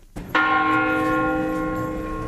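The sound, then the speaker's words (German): Monastery bells of an old Cistercian monastery in a Portuguese town: one loud bell strike rings out and hums on in a long, slowly fading tone. “Es sind die Glocken des Klosters, die Alcobaça den Takt vorgeben, einen sehr gemächlichen Takt.”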